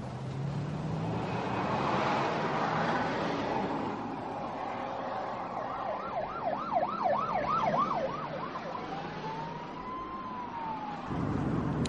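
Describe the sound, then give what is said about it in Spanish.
A police car siren wails in a fast warble over steady car and road noise, then glides into one slower rising and falling wail before cutting off. “Un coche de policía aparece tras ellas.”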